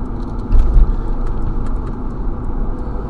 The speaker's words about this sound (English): The light just turned green. Damn, it's like the drag races.